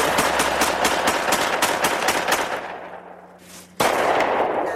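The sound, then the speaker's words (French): Gunfire rings out during shooting practice in a forest: a rapid run of many loud, sharp shots, then a fading tail, then one more abrupt blast. “Chez eux, les policiers découvrent un film où on les voit qui s'entraînent à tirer dans une forêt.”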